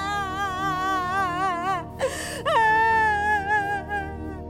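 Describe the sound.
A person lying on the ground wails and cries pitifully in a high, quavering voice, with long sustained sobs and shaky vibrato broken by a brief gasp midway.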